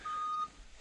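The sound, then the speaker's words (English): A forklift's reversing beeper sounds one faint, steady high-pitched tone lasting under half a second, then only low background noise remains. “A little forklift noises. I feel the forklift.”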